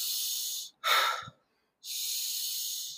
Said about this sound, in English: It's constant, but in nose, out mouth sounds like this.